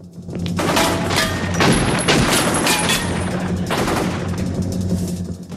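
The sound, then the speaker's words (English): Heavy gunfire rattles through a gun battle in front of a building. Rapid bursts blur into an almost continuous loud barrage with booming thumps mixed in, and it thins slightly near the end. “At the front of the building, there's a truck. Alex uses it as cover while the gun battle continues.”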